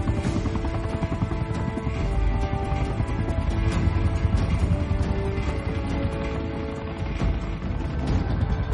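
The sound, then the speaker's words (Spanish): Helicopter flying over mountains, heard as a loud, steady, dense roar with faint rhythmic pulsing that holds throughout without a break. “El helicóptero sobrevuela las montañas.”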